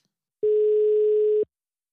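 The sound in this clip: A telephone ringback tone sounds while a number is being called: one steady, mid-pitched tone lasting about a second, alone, with silence before and after.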